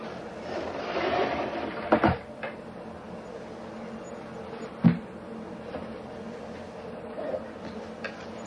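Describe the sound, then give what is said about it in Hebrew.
A drawer being opened and closed gives a few soft knocks and slides over a low, steady background hum. A quick double bump comes early, and a single sharper thump follows a few seconds later. “הנה, תפתח ותסגור את המגירה.”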